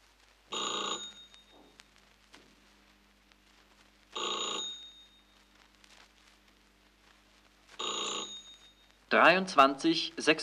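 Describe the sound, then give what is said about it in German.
A telephone bell rings for an incoming long-distance call from Warsaw, three evenly spaced rattling peals of moderate loudness, followed by a brief, louder noisy burst at the end. “Leonard ruft Konrad wegen des Termins an.”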